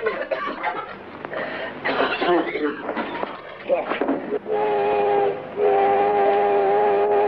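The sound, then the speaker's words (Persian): A train whistle sounds as a train arrives in a city. A mixed, rumbling stretch of noise gives way to two long, steady, chord-like whistle blasts, the second longer than the first. “زودتر نگفتی قطار رسیده؟ عزیزم این قطار قطار هشتمیه که وارد شهر شده”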